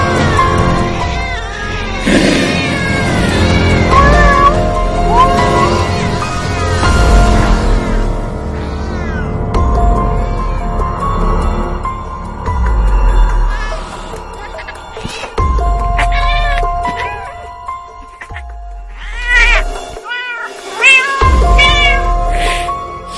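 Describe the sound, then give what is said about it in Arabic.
A cat meows repeatedly inside a room, giving many loud, drawn-out, wailing cries with short pauses between them. “عاوز أفتح لكني خايف لأني سامع جوه الأوضة صوت قطة. احنا ما عندناش قطة.”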